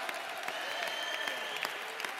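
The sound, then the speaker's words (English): A church audience claps their hands in celebration, a continuous, fairly quiet patter of many hands with faint voices mixed in. “Oh, clap your hands, all ye people, shout unto God”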